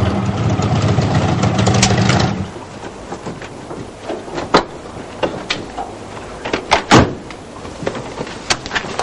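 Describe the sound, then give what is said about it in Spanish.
A chauffeur opens a car door. The idling engine's rumble cuts off, followed by scattered sharp clicks and latch knocks of the door. “El chofer abre la puerta”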